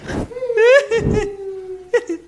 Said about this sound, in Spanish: Cada vez lloras mejor, más natural. Es difícil llorar.